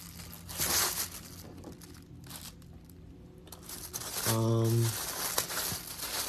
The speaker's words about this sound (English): Wish I could tear this part too. I wonder if I can just keep ripping it.